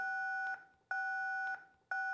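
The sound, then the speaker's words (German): Blood scanner beeping: steady electronic two-tone beeps in a regular on-off pattern, about three of them, the last one cut short. “Also Aaliyah, ich werde dein Blut scannen.”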